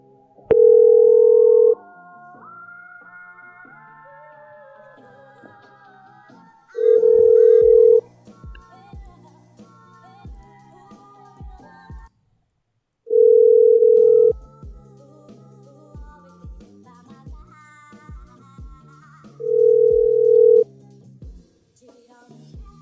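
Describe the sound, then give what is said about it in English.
A phone call rings out while a number is being called back. Four long, steady ringing tones come about six seconds apart, with quieter melodic sounds between them. “All right, calling back to 347. I don't know what they are, but they called like 10 times.”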